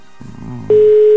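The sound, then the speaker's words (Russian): Telephone ringing tone while calling someone: a loud, steady single-pitched tone starts partway through and holds to the end, after a faint low murmur of background sound. “набираем. Звоним имениннице.”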